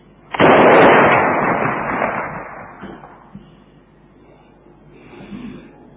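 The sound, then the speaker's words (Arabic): A signal cannon fires one loud, sudden boom that rolls off into a long rumbling decay, with a faint low swell near the end. “مدفع الإرشاد اضرب”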